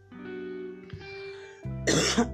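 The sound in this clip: Dry-throat coughing: a short, harsh burst of a couple of coughs near the end, following a steady low tonal hum.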